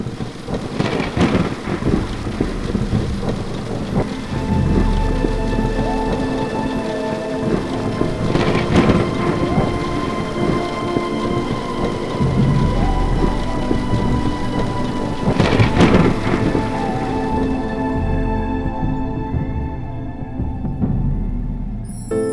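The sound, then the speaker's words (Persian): Rain and thunder: a steady, loud hiss of falling rain, broken by a few deep rolling rumbles of thunder, before the sound fades out at the end. “آسمان می بارد و می باردش باز”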